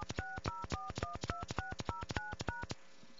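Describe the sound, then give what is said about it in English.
Telephone keypad DTMF tones on an automated calling line in India: a rapid, even run of many short two-note beeps, clear and alone, ending with a brief quiet gap. “For calling within India, dial 0 by.”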